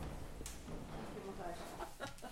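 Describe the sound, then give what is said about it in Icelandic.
Soft clucking of hens in an animal shed kept with rabbits, faint and intermittent while people talk. “Nú erum við komin hérna. Hér eru hænur og kaninur.”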